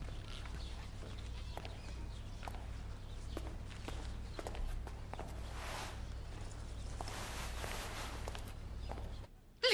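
Footsteps of someone going upstairs, many steady, evenly paced thuds over a constant low hum, with no voices.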